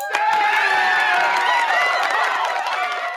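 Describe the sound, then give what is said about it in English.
A live studio audience cheers and applauds in a loud, steady wall of whoops, shouts and clapping that holds without a break. “And it's a live studio audience, which is very exciting.”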